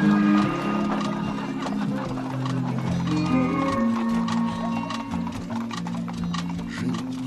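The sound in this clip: Horse hooves clip-clop steadily as a rider on horseback leads a procession, a continuous rhythmic clatter running beneath sustained tuneful tones throughout.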